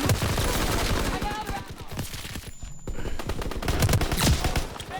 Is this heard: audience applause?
no